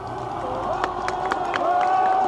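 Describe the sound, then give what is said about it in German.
Crowd of demonstrators at the Brandenburg Gate in Berlin cheering as a red flag is lowered, a steady roar of voices with raised shouts and a few scattered claps standing out, in an old archival recording. “Nun geht die rote Fahne runter. Die Demonstranten klatschen, sie schwenken ihre Hüte. Sie rufen, wir grüßen das freie Berlin.”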